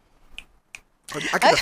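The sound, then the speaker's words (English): Two sharp, crisp finger snaps, spaced apart, sound in near silence. Dense, loud voices and noise follow them. “I get the finger snaps.”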